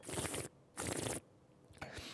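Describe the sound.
Three noisy slurping sips of a Würzburger Stein Riesling, first-growth dry white wine, drawn in with air across the palate, each burst short and fairly loud with brief quiet gaps between.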